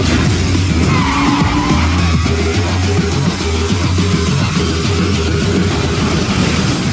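Loud, continuous tire skidding from a car as police order it to stop, a harsh screeching roar with steady tonal whine that holds for the whole stretch without pause.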